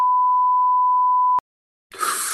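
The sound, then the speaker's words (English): A censor beep covers a spoken name: a single steady, pure mid-pitched tone lasts over a second and cuts off abruptly. A brief silence follows before noisy sound returns. “I'll say his name. I'll have to beep it out.”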